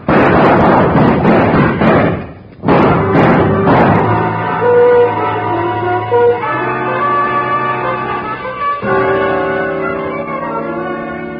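Gunshots going wild in a tense confrontation: a rapid volley of loud, sharp bangs, a brief pause, then a few more shots, after which sustained musical tones take over.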